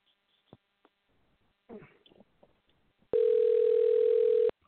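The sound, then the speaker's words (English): A telephone line ringing while a call is dialed: a few faint clicks and brief rustles, then a single loud, steady, buzzy tone that holds for over a second and stops abruptly. “But let's try this one first. It's dialing.”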